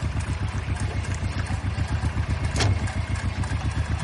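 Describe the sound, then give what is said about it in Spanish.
An old car's engine runs with a low, steadily pulsing rumble as the car backs away in reverse, holding an even level throughout. “El coche se va marcha atrás.”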